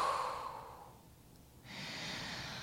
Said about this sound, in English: and then deep exhale to release